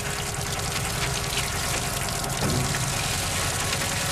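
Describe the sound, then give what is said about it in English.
Water pressure drives seed through a tube into a mesh sock, much like filling a sausage, giving a loud, steady gushing rush of water that runs unbroken and alone. “And the water pressure forces the seed through the tube you see on front into the sock, similar to filling a sausage.”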